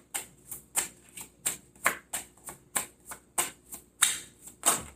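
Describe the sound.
Playing cards being shuffled and drawn from a deck, a quiet, steady series of crisp flicking snaps at roughly two per second, each with a short papery tail.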